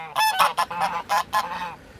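Geese honk in a rural yard behind small fishermen's houses, where geese and chickens are kept. A quick run of loud, nasal honks overlaps with one another, with no talking.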